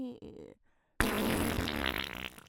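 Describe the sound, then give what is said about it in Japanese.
A long, loud, sputtering fart lasts about one and a half seconds with a rough, buzzing texture. A shorter, quieter low rumble comes just before it. “おなら、ぷーごめん、全然ぷーって可愛い音じゃなかったわ。”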